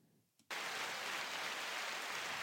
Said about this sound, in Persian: یه دست برشون بزن. یه دست برشون.